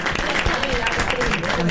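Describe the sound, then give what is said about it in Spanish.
Studio audience applause during the final of a game show with three suitcases, a short burst of clapping running under people talking. “El aplauso para Bonassi, chicos.”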